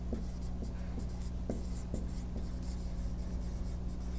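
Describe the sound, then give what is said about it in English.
Faint scratchy strokes of an H-R diagram's main sequence being sketched on a board during an astronomy lecture: a series of short scrapes and taps over a steady low hum. “And let me sketch in, you'd have the main sequence, looks something like that.”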